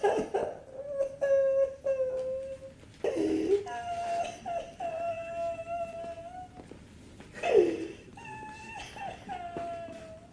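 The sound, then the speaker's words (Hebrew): A person crying after being chased by a dog: wordless, high, wavering sobs and whimpers come in several bursts, each wail sliding up and down in pitch. “אל תבכה.”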